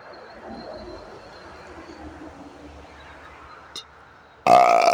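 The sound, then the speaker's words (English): One loud, guttural burp comes from a person who has the hiccups. It erupts abruptly near the end after a stretch of quiet, low background noise. “Burping like crazy. And I got the hiccups. It's crazy. I got hiccup burps.”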